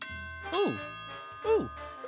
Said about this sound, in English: Was that the doorbell? Yep. That's what it sounds like? Yeah, that's the doorbell.